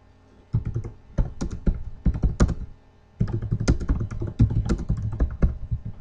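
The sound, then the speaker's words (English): Typing on a computer keyboard into a chat window: many quick clacking keystrokes in two bursts separated by a brief pause, fairly crisp and close. “I can type away here.”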